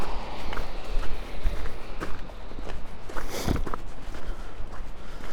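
Footsteps of someone walking outdoors at night, a steady series of soft, dull steps spaced evenly over a constant background hiss, with one heavier scuff partway through.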